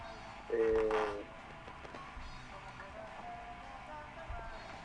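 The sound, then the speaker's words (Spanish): A single steady mid-pitched disconnect tone sounds for under a second as a telephone call is cut off, then fades into a low background hiss. “Si desea realizar una nueva llamada... Se cortó.”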